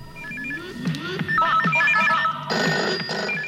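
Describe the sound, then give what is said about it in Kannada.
A telephone ringtone announces an incoming call: a bright electronic melody of repeating, chirpy notes plays loudly and steadily with no voices. “ಮೊದಲನೇ ಕರೆ ಬರ್ತಾ ಇದೆ, ಕೇಳೋಣ ಯಾರು ಮಾಡಿದ್ದಾರೆ ಅಂತೇಳಿ.”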